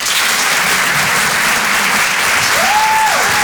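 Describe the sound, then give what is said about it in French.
Loud, steady applause from a comedy club audience at a Paris theatre fills the whole stretch. A single sustained whistle rises above the clapping near the end and then drops away. “Faites du bruit, s'il vous plaît, pour Bruno Pecky.”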